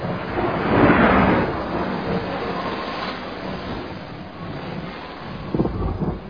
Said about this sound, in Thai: พายุเห็บนี้มันจะไม่มีวันหยุดเลยหรือ